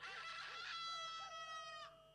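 A rooster crows in one long, harmonically rich call of nearly two seconds, with warbling shifts in pitch before it breaks off. The crow is faint overall, with no voices.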